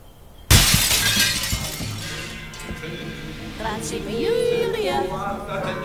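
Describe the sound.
An arrow strikes a hallway mirror and the glass shatters: a sudden loud impact bursts into a bright, splintering crash that decays over several seconds, followed by quieter tonal sounds.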